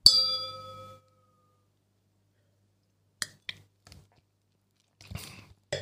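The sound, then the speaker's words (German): Wine glasses clink in a toast, a single bright ringing ding that fades over about a second, then after a pause a few faint, short drinking sounds. “wird natürlich währenddessen auch Weinchen getrunken, so wie jetzt. Cheers.”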